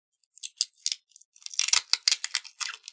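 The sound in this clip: Adhesive tape being handled while piecing a cut playing card back together, heard as dry crackling and ripping bursts, sparse at first, then denser and busier, with no voices.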